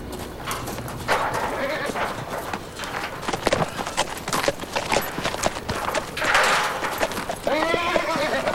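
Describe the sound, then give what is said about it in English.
Horses gallop into a temporary enclosure during a gather, their hooves drumming in a busy, uneven clatter throughout. A whinny rises near the end. “Back on her horse again, Jordan snaps away as the pack gallop into the temporary enclosure.”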